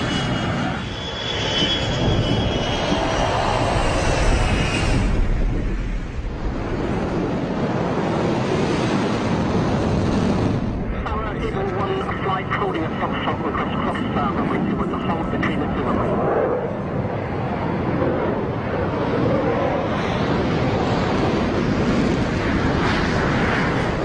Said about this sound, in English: Vance on Nellis Tower, you're cleared for takeoff.